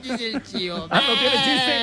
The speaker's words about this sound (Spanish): El chivo, es un chivo